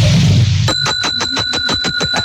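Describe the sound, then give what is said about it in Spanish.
A bell rings in rapid, repeated strikes with bright, high, clear tones that keep sounding over one another. It starts abruptly after a short stretch of low background noise and continues evenly to the end. “Esa campana.”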